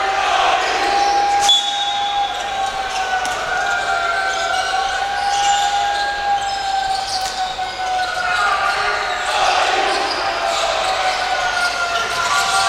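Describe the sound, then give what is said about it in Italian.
A basketball is dribbled on the court during a professional game, with repeated bounces heard under steady crowd noise and an excited commentator's voice. “Gray tiene il palleggio”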